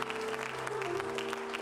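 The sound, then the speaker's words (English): A church audience claps in praise during a morning worship service, a brief burst of quick, dense hand claps over sustained low musical tones. “Let's give the Lord a hand clap of praise this morning.”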